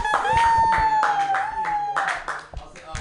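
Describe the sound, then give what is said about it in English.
Comedy club audience applauding a comedian as he is introduced: a steady burst of clapping with a high whoop held over it, easing off toward the end. “Everybody, put your hands together for Abbas Wahab.”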